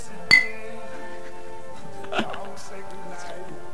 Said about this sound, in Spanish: hagamos ruidito de brindis, a ver, ¿tenés la copita de champán ahí? Bueno, pero sí, porque vas a brindar.